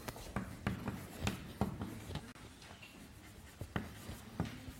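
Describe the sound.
Writing strokes as a mathematical expression about products of open rectangles is written out: many quick, irregular scratching taps in uneven bursts, fairly faint, with no voice over them.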